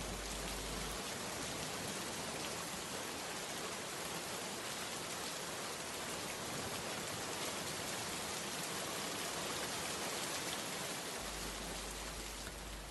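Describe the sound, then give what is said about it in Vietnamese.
Steady rain falling at nightfall on a village after years of drought: a dense, even hiss that stays loud and unbroken from start to finish, with no voices. “tiếng sấm ì ùng nổi lên, mưa bắt đầu rơi.”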